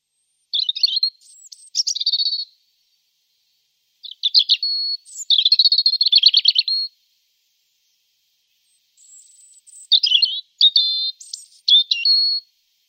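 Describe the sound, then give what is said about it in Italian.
High-pitched chirping from a female bird while she builds her nest; the species nests in holes left by people. Three bursts of rapid twittering notes are separated by silent pauses. “Nidifica nei buchi lasciati dall'uomo. Ecco il fraseggio che usa la femmina durante la costruzione del nido.”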